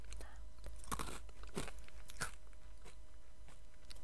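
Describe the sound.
Someone chews crunchy rice crackers mixed with peanuts, a few sharp, faint crunches and bites scattered over a low steady hum.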